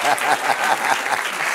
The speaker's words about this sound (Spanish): Dale un aplauso, señora.